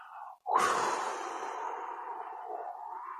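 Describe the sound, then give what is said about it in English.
A slow, calm breath demonstrated by a voice, soft and airy, with a brief murmur before it and then a steady exhale of about three seconds. “this breath has a sound more like this.”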